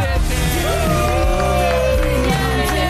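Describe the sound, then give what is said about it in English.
A studio audience on a morning show cheers and whoops for a guest, with loud, continuous voices sliding up and down in pitch over a dense crowd roar. “It is genuinely nice to be cheered for.”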